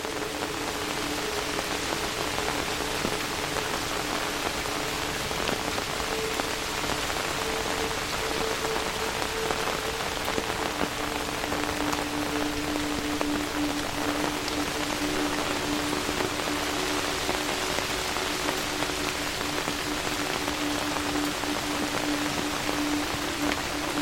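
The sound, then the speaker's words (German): Steady rain patters on taut umbrella fabric in a dense, continuous hiss of small drips, even in loudness throughout, with no voices. “Das monotone Tröpfeln des Regens auf dem Stoff deines Schirms wirkt wie eine beruhigende Melodie, die dich begleitet.”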